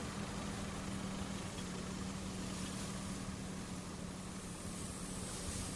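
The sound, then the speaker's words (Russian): Steady idling car engine as the car stops short of its destination: a continuous low rumble with a faint hum. It holds at an even loudness throughout, with no talk. “Не доезжая, машина останавливается.”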